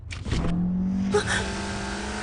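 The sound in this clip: Car engine drone heard while riding in the car, a steady low hum with a faint tonal whine running throughout, loud and continuous without a pause.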